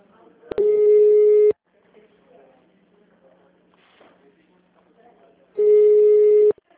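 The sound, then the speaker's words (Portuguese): Telephone tones play while a call is transferred on a switchboard line: two long, steady, mid-pitched beeps about a second each, separated by a few seconds of faint low murmur. “Aguarde, estamos transferindo a sua ligação.”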